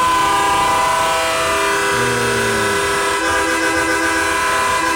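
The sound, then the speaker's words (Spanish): A loud, sustained horn blast holds a steady, blaring chord for the full five seconds. A brief lower tone dips partway through. “Pues está bien duro ese pito.”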